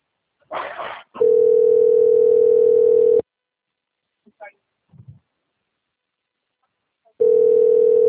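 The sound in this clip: A telephone dial tone after a dropped call: a brief noisy burst, then a steady single-pitched hum for about two seconds that cuts off. A few faint short sounds follow before the tone returns.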